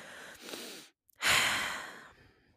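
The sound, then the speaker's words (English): A deep breath taken during a calming tapping exercise: a soft inhale, a brief silent pause, then a longer, louder, airy exhale that slowly fades, with no talking. “Take a deep breath.”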